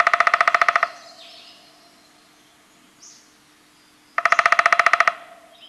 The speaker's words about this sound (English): The downies have a chip chip call, and then it sounds again like a coin spinning down just a little bit and gets faster towards